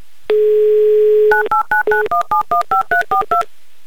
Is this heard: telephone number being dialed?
yes